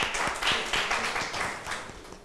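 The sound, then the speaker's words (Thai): Classmates applaud a student in a classroom with a short burst of quick, scattered hand claps, moderately loud and fading after about two seconds. “เก่งมากปรบมือให้เพื่อนค่ะ”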